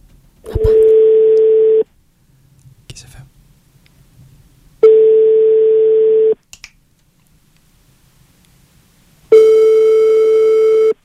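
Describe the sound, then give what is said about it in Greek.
A telephone call ringing out on the line: three long, steady electronic ring tones, each lasting about a second and a half, separated by stretches of near silence with faint clicks. “Έλα, χτυπάει. Απάντα.”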